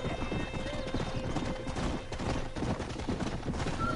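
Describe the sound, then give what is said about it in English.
Horse hoofbeats from riding across McFarlane Ranch in a video game, a steady, rhythmic clip-clop of many hoof strikes that keeps an even, moderately loud pace from start to finish. “More horse riding. This is basically getting you the lay of the land of the McFarlane Ranch.”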